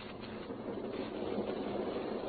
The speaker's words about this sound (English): we have to catch the train for